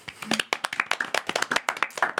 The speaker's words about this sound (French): On peut l'applaudir.